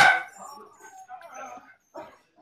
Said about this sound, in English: I'm pausing here because they're barking still.